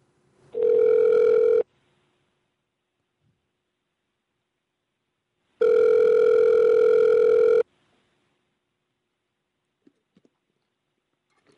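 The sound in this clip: Telephone ringing tones on a call to a school: two long, steady, buzzy tone bursts separated by several seconds of silence, followed by a few faint clicks.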